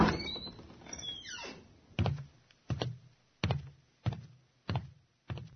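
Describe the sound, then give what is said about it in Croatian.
A creaking door swings open with a long, drawn-out groan, then six heavy thuds follow in a steady, even rhythm. “prođi kroz odabrana vrata, idi do kraja hodnika i siđi stepenicama jedan sprat. Zatim uđi na otvorena vrata.”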